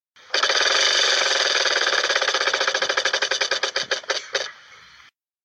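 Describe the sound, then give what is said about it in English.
A prize wheel spinning in a game: a loud, fast stream of ticking clicks that gradually slows into separate, widening clicks before stopping abruptly. “Let's spin the wheel again”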